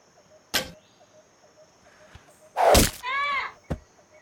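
Arrows are shot at a target during target practice, landing in a few sharp, isolated thwacks separated by quiet pauses, with one heavier burst of impact and rustle near the end.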